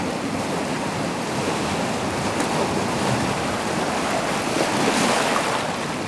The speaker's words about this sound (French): La marée est montante.